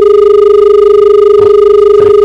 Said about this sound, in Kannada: ಒಂದು ಕರೆ ಇದೆ ಸರ್, ತಗೋಣ.